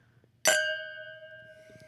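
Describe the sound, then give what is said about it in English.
Wine glasses clink together once in a toast, a bright, high ringing tone that lingers and slowly dies away. “Well, cheers to that. Oh, let's cheers.”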